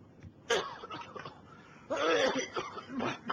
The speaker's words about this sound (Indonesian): Batuk, oi.